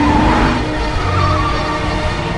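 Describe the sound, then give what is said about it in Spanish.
A car reverses at speed against heavy traffic during a police chase, giving a loud, steady roar of engine and road noise with no clear breaks. “Ella mete la marcha atrás y se aleja. Los policías les persiguen. Ella conduce marcha atrás en sentido contrario al intenso tráfico.”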